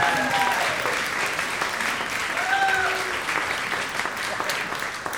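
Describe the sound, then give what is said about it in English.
An audience of women applauds loudly and cheers, the dense clapping carrying high whoops near the start and again midway, then continuing steadily to the end. “You're listening to the roar of the female humans.”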